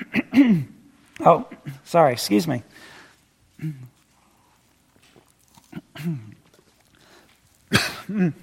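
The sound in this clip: Coughing and throat clearing from a speaker during a talk: a few rough, voiced coughs and throat clears come in clusters, then a quiet pause, then more, ending in a sharp, harsh cough.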